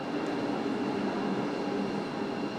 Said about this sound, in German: Zurück im RB12 von Templin Richtung Berlin-Ostkreuz